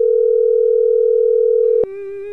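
A steady telephone line tone holds at one even pitch for almost two seconds. A sharp click then cuts in, and a thinner, buzzier tone carries on to the end. No voices are heard.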